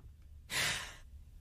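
A single soft breath played from a recording, a brief airy sigh-like exhale of about half a second standing alone against a quiet background.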